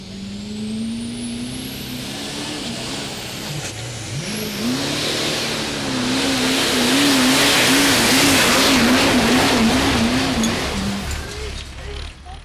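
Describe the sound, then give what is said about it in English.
A pickup truck engine roars during a truck sled pull, a loud sustained drone that swells and holds with a wavering pitch before easing off near the end. “Truck looked like it was running hard.”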